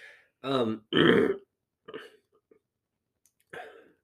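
Phlegmy throat clearing: a few rough, guttural bursts separated by short pauses, the two loudest close together near the start and weaker ones following.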